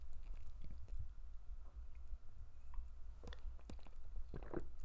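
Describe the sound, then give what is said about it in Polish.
Faint sips of coffee come through as a few soft slurping mouth sounds over a low, steady background hum, with no talking. “Łyczek kawy i jedziemy dalej z tematem.”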